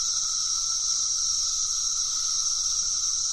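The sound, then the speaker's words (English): Male cicadas sing their thrumming mating call, a steady high-pitched buzzing drone that holds at an even loudness throughout, with no pauses or talk. “The male cicadas make a thrumming sound with their wings on their bodies to call for mating. The singing appeals to females.”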